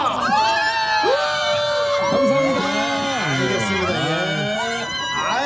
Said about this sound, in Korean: 많은 분들이 밖에 와 있는데요. 자, 마이크 잠깐 열고. 자, 여러분 소리 질러!